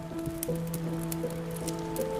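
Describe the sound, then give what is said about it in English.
Heavy rain falling on a dirt path, heard as a faint, continuous patter of drops under a steady tonal hum. “It's still raining hard outside. You can see fat raindrops pummeling the dirt path through the windows and the open door of the inn.”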